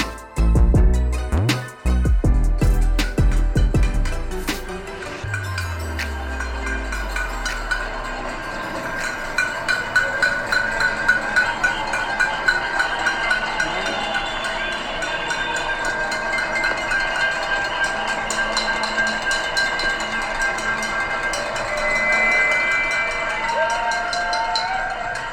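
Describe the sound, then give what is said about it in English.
Crowds across New York City roar and cheer for essential healthcare workers at 7 p.m. during the height of the pandemic, a loud, sustained wash of whoops and noise. “It's the sound of New York City roaring and cheering for essential healthcare workers during the height of the pandemic every single night at 7 p.m. here in the city.”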